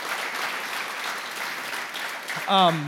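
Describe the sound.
Audience applause rises to welcome a woman onto a church stage, a steady wash of clapping that holds for the whole stretch, with a voice breaking in near the end.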